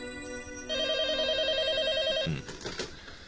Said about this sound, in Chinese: 可就在这个时候，电话铃响